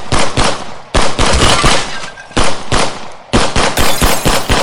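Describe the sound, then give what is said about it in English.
Rapid automatic gunfire comes in several long, loud bursts of tightly packed sharp shots, each separated by a brief gap, with no voices over it. “Stop fucking shooting, man!”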